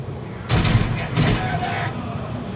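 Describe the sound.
Two bursts of rapid gunfire from a bandit-style weapon with a 72-round clip in a video game. Each burst is about half a second of dense crackling noise, and talking runs underneath.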